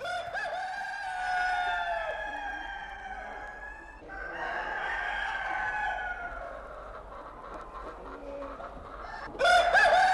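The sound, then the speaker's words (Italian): A rooster crows in long, strained harmonic calls that rise and hold before trailing off, heard alone without any voices. “Volete il gallo? Vabbè, gallo.”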